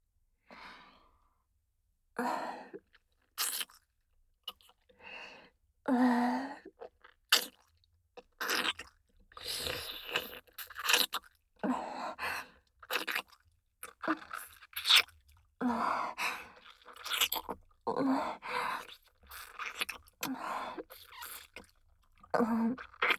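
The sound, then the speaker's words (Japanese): Wet kissing on the lips, with many soft smacking and slurping mouth sounds mixed with breaths and sighs. No talk is heard. “ほら、キスをしなさい。私の美味しそうな唇に、熱い接吻をするの。”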